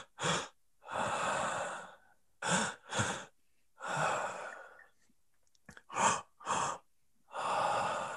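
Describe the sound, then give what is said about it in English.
A person demonstrates an energizing breathwork pattern: two quick, sharp inhales, then a longer, slower breathy exhale, repeated in several rounds with short silent gaps between them. “It's two quick inhales and then a longer, slow exhale.”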